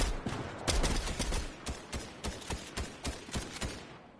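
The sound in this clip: Gunfire in a shooter video game: many sharp shots, first a dense, overlapping burst, then a steady run of evenly spaced single cracks that tapers off at the end.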